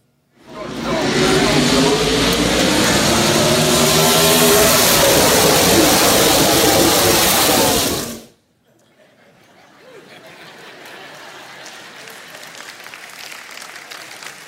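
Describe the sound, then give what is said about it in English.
NASCAR race cars roaring past front row seats at a race, a loud sustained wall of engine noise lasting about eight seconds, then an abrupt cut to a much quieter background murmur. “Listen, I could care less about NASCAR before that race. And once I sat front row, you literally feel the vibrations and the wind of the car.”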